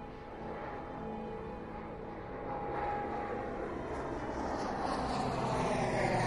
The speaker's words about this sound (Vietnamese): Chiếc máy bay lẫn vào trong bầu trời đêm đầy sao.